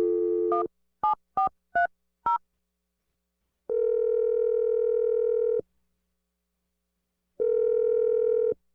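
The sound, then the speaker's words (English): A phone number is dialed: a quick run of short keypad tones follows an opening tone, then two long, steady ringing tones separated by silence. “let's dial the number right now. Here we go.”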